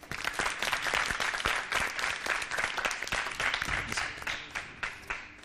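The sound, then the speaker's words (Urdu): Audience applause welcoming a team called up to take part in a contest game: dense, steady clapping from many hands continues for the full five seconds without talk. “Team B سے درخواست کروں گی یہاں تشریف لائیں، ان کے استقبال کے لیے تالیاں۔”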